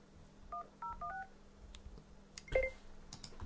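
Telephone keypad tones as a phone number is dialed: a few short, clear beeps in quick succession, then a pause and one louder beep, over faint background noise and light clicks.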